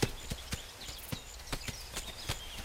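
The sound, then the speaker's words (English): A horse walks up a racetrack with a steady, faint clip-clop of many evenly spaced hoof falls over a hissy background. “Channing takes off the saddle and Nolan takes off the halter, giving Stripes a quick stroke as he lets him walk off up the racetrack.”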